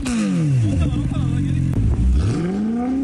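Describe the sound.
A car with a modified, loud aftermarket exhaust revs with a deep, raspy roar. Its pitch drops, holds, then climbs again as the engine is blipped. The sound is loud and continuous.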